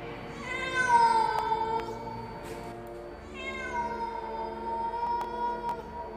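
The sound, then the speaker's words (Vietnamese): A cat meows in two long, drawn-out cries, the first rising and then sliding down, the second starting after a short pause and trailing on at length. The meows are loud and clear, with no talking. “Rồi có nghe tiếng mèo kêu lên man dở.”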